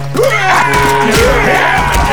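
Loud massed yelling and roaring from villagers charging at Roman soldiers, a continuous din of overlapping shouts and screams with wavering pitch throughout.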